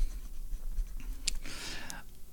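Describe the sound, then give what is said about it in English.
A pen writing: a brief, faint scratch of the nib on paper lasting under a second, heard alone between quieter stretches. “Where did I put my writing stick? Oh, here it is.”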